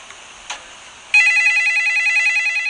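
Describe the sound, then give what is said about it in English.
A telephone rings with a steady, bright electronic warbling tone that starts abruptly after a short near-silent stretch with one faint click, then continues at an even, pulsing level to the end. “Oh, that's the phone! Hold on!”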